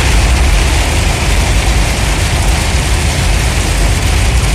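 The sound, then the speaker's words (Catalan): A car driving uphill along a main street where floodwater runs down from side to side like a river during very heavy rain: a dense, loud, unbroken roar of rushing water and low engine rumble, with no voices. “L'artèria principal, al carrer Lluís Carulla, baixava realment com si fos un riu, de costat a costat. Vaig parar i vaig gravar. Però també vaig voler fer algun vídeo conduint carrer amunt.”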